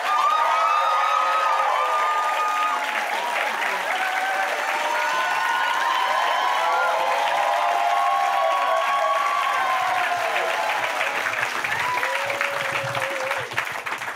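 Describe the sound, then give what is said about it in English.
A studio audience cheers and applauds for a rock band appearing on a talk show. Dense, loud clapping runs continuously for the whole stretch, with scattered shouts and whoops rising above it. “Give it up for Weezer.”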